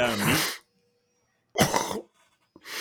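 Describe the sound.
Coughing from a diner eating too fast at a Greek restaurant: three harsh, rough bursts separated by silence.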